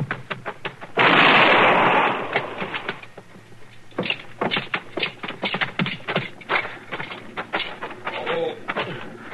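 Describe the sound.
A gunshot in a western radio drama: one loud, sharp burst with a hissing tail that lasts about a second, followed by quieter rapid tapping and shuffling.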